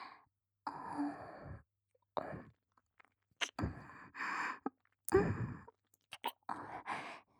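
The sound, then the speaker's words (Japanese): Wet ear-licking and mouth sounds in an intimate close-up setting: several soft, moist bursts with breathy sighs, separated by short silences. No talk is heard. “まずはお耳を舐めさせていただきますね。失礼します。”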